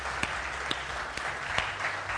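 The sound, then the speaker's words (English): A church audience claps for visitors at a morning service, a soft, steady wash of applause with a few sharper, louder individual claps popping out above it. “Well, can we just give a big hand clap to anyone who's visiting this morning?”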